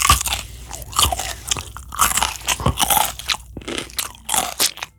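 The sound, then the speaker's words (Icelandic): Crunchy bites into a freshly picked carrot in a vegetable garden, followed by many sharp, crisp crunches and chewing in an uneven rhythm, loud and with no talk. “Á líðandi stund er hann einmitt í grammetisgarðinum bak við kastalan að tína upp gulrætur og smakka aðeins á þeim er hann letar hún í körfu.”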